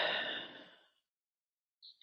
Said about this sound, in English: We will take 3 deep cleansing breaths to center ourselves in this moment. Deep in, deep out.